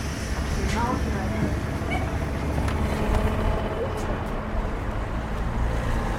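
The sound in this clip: A train passes at the suburban Val d'Argenteuil railway station, a dense, even rumble of rail and nearby traffic that fills the whole clip while voices talk faintly underneath.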